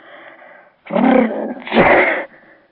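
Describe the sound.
A man with a cold, snuffling and wheezing, lets out a loud two-part sneeze: a rough indrawn burst followed by a harder explosive release, framed by quieter nasal breathing before and after.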